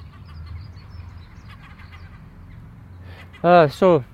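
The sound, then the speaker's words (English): A small flock of jackdaws calls: two loud, harsh, clipped calls in quick succession near the end, over faint background noise. “It's another wee flock of jackdaws.”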